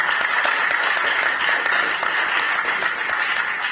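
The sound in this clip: Applause at a public event honoring a speaker: dense, even clapping that holds steady and loud from start to end without a break.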